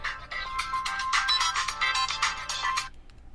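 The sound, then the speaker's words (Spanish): A phone ringtone signals an incoming call: a bright, repeating melodic electronic tune plays loudly and steadily for nearly three seconds, then cuts off into quiet. “No es de los bancos que me está llamando Cuni, pero después le respondo.”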